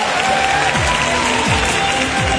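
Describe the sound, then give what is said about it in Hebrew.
Audience applause at a Jewish music competition final: steady, dense clapping and crowd noise that runs unbroken through the whole stretch, with a few falling musical sweeps underneath. “כפיים ליוסי מרק חבר'ה.”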